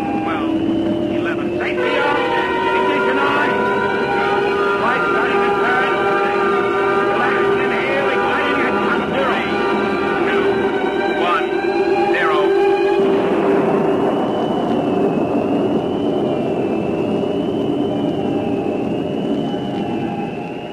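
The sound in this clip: A generator and engine run with pumps during a launch countdown: a steady, loud tonal drone with layered harmonics that shifts partway through to a lower, rougher rumble.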